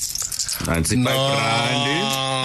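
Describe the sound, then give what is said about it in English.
Brown coins jingle in a brief bright metallic clatter, then a loud voice takes over and continues to the end. “Was that coins? Coins. Brown coins.”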